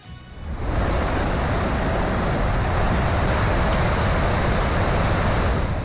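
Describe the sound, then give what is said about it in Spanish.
Iguazú Falls roars as a massive waterfall in a dense, unbroken wash of rushing water. The sound swells in during the first second, then holds loud and steady with no pauses or voices. “Bueno, este es el sonido de las cataratas de Iguazú.”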